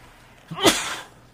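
A single sneeze bursts out, a short breathy intake rising into one sharp, noisy explosion that quickly fades, fairly faint and alone without talk.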